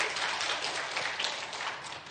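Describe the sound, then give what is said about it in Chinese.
Young church fellowship members receive applause from the audience, a brief, dense wash of many hands clapping at moderate volume that tapers slightly at the end. “觉得棒的话给他们一个掌声。”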